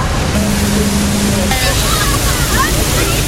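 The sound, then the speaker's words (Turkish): Fire engines hose down tourists with water during a heat wave in Czechia, making a loud, continuous hiss of spray with faint voices in the background. “İtfaiye araçları turistlerin üzerine su sıkarak serinlemelerini sağladı.”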